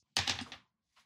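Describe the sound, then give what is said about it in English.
Dice rolled during a tabletop game turn clatter in a single quick rattling burst lasting about half a second, followed by a faint tap. “You can't do jack-all, but you can roll some dice of fate.”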